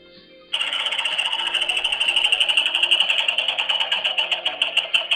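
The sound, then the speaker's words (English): A spun game-show prize wheel rattles with a rapid stream of clicks that stays steady and fairly loud, then spaces out into slower, distinct ticks as the spin winds down. “Okay, so we spun the wheel.”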